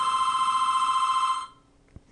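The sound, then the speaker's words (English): A telephone rings as a caller phones in to a radio show from New York City. It is one loud, continuous electronic ring that stops abruptly after about a second and a half, followed by a faint click. “Okay, I believe that's our caller calling in from New York City.”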